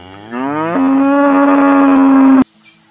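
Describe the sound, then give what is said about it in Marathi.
A cow's dying bellow erupts in a forest as an arrow strikes it: one long, loud moo that starts lower, jumps to a steady held pitch and then cuts off sharply, followed by quiet. “बाणाच्या मर्मभेदानं रान श्वापदाऐवजी एका गायीचा प्राणांतिक हंबरडा माझ्या कानांवर आदळला.”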